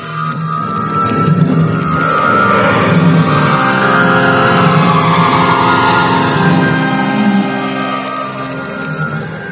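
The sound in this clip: A car engine running and pulling away, a loud, steady mid-pitched motor drone that swells as it revs and eases slightly toward the end, with no talk over it.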